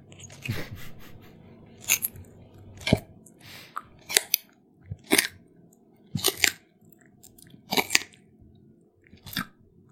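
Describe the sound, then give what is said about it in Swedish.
A camel chews a carrot with many sharp, crisp crunches at an uneven, roughly steady pace, each bite crackling loudly over soft background mouth noise, with no talk. “Kamel äter morot.”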